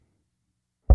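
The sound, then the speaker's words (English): A single dull knock at a door, a short low thud that breaks the silence right at the end. “there does always seem to be someone knocking at my door.”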